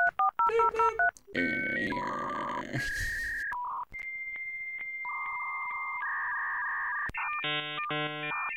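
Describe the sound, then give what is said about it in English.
A dial-up internet modem connects: a quick run of dialing tones, then a chain of steady whistles, shifting pitched tones and harsh noisy screeches, ending in a burst of rapidly warbling tones, loud and continuous. “Can I just be real that I love dial-up internet sounds? Like, they're so good.”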